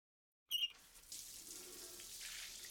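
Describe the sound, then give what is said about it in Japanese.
Hot water runs from a shower for rinsing. A brief squeak and splash come first, then a soft, steady hiss of flowing water with no voices. “そんじゃ、流すね。お湯出して。”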